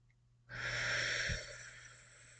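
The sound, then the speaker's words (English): A slow, deep breath drawn in, an airy rush that starts abruptly, stays strong for about a second and then gradually fades, heard alone and quietly. “I'm going to take a deep breath. And if you are collecting yourself in this moment as well, take this deep breath with me. Okay, here we go. In.”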